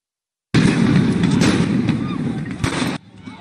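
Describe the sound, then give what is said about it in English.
Gunfire rings out as a rioter shoots at police. After silence, a loud burst of rough noise begins, with a few sharp bangs standing out, before it drops off abruptly near the end. “this guy is actually shooting a gun at cops. Like, check this out.”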